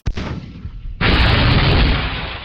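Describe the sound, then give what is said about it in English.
A missile fires and explodes in a video game. A sharp hit opens onto a softer rushing sound, then a loud, dense, sustained roar bursts in about halfway through and holds steady to the end, with no voices. “Now, missile!”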